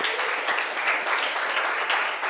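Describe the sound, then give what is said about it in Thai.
Students clap for a classmate group that has just won a timed task in class, a short burst of many hands applauding at a fairly even, moderate level. “ปรบมือให้เพื่อนหน่อยค่ะ”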